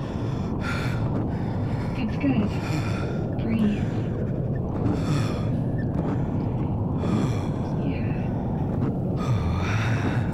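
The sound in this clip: A person in distress in the cold gasps and breathes heavily: many rapid, ragged, breathy gasps in an uneven rhythm, over a constant low rumbling background noise.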